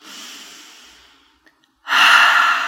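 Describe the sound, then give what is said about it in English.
A gentle breath during a breathing exercise: a soft, airy inhale through the nose, a short pause, then a louder, fuller exhale through the mouth. “The breath pattern that we will be working with today is a gentle breath in through the nose and out through the mouth.”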